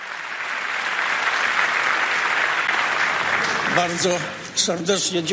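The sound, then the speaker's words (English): A standing ovation greets the legendary leader of the Polish democratic opposition as he arrives on stage to receive a title. The sustained, loud applause runs unbroken for several seconds before a voice begins speaking over it near the end. “A standing ovation welcomed the legendary leader of the Polish Democratic Opposition when he arrived on stage to receive the title.”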